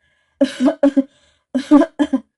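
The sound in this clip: Coughing from someone caught in thick smoke from a kitchen fire: a hoarse, voiced fit of short coughs coming in quick pairs, with a brief gap midway before the next burst.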